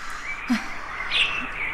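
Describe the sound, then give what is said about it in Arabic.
Birds chirp in a few short, bright calls over a steady background hiss. “وأصوات هذه الطيور تؤنسني”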